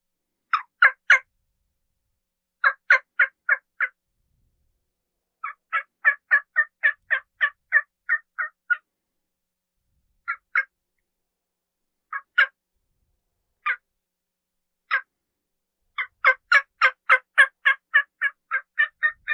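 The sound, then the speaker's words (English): Wild turkey hen yelping imitated on a turkey call: short, nasal yelps in runs of four or five, a longer string, scattered single yelps, then a fast closing run, all alone with no talk. “when she's yelping just during the day, soft yelping or whatever, listen at her. She's mixing it up. So if you want to sound real, you got to mix it up.”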